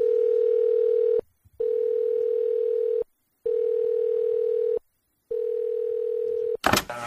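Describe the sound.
Telephone line tone while placing a call: a steady single-pitched tone sounds in four long bursts separated by short silences, ending in a brief click and rustle.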